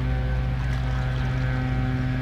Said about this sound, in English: The machinery of the wind dust blower is on, so we'll let it be with this